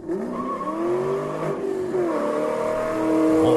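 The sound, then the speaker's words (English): Engine revving hard as a Ford Mustang peels out, a loud, steady roar whose note climbs twice in pitch without a break. “That is a Mustang peel out. Trust me, it really is.”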